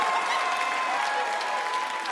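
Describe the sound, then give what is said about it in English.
Audience applause fills the whole stretch with dense, steady clapping at an even loudness, plus a few faint whoops from the crowd. “No, don't clap for that.”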